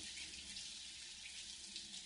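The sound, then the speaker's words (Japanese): Hot water runs from a shower or tap while hair is rinsed: a continuous, even hiss and splash with steady loudness throughout and no voices. “お湯が流れる。”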